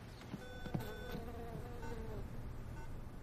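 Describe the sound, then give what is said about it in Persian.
A housefly buzzes in a faint, continuous thin drone that wavers slightly in pitch, with a couple of soft ticks and no talk. “مامان، یه مگس رو صورتت نشسته، تو که نمیتونی بزنیش بره.”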